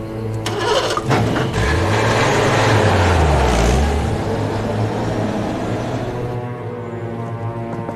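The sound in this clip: A car engine starts and runs with a loud, steady rumble, and a low tone dips and recovers early on before the noise eases slightly toward the end.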